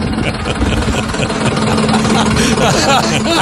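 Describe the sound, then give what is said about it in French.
Car engine noise from a Ford Mustang: a loud, rough, continuous rumble that holds steady throughout, with voices talking over it. “si la Mustang de Pascal fait ce bruit-là, je te jure que les filles sont pas après toi pour ton char.”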